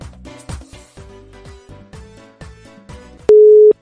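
Telephone line tones while a number is dialed: a regular series of short pulsed bursts, then a loud, steady sustained tone at the end.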